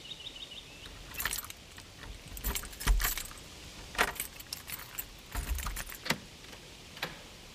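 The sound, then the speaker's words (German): Keys jangle and clink in several irregular bursts as a key is used to unlock an old house door, with no voices. “Mit diesem Schlüssel, den sie von Rechts wegen vor 2 Tagen hätte abgeben müssen, will sie noch ein letztes Mal die Tür aufschließen und ins Haus gehen.”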